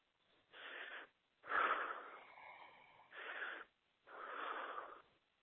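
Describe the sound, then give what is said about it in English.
Deep breathing during a guided meditation: four long, airy, faintly wheezy breaths separated by short silences, soft and with no voice over them. “And take deep breath in.”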